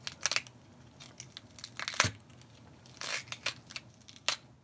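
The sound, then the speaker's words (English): Broccoli is torn apart by hand as a foley sound effect, making a series of crisp, crackling snaps and wet tearing bursts in an irregular rhythm, fairly faint. “That sounds creepy. A bit like tearing flesh, maybe branches breaking. In fact, it's broccoli being torn in half.”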